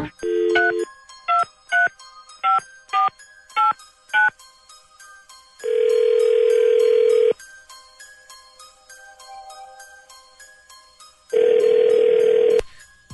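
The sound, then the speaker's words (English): Telephone dialing: an opening tone, then a rapid run of short keypad beeps, followed by two long steady ringing tones separated by a quiet pause. “Dialing at random.”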